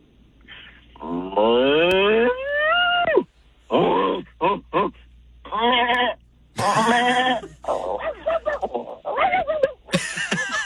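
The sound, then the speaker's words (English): A person's voice imitates farm animals such as sheep and goats in a long run of loud, wavering bleats and groaning calls, some rising in pitch, with brief gaps between them. “There's a lot of animals in distress on that farm. Oh, my farm, goodness. Like. How can you do so many great farm animals?”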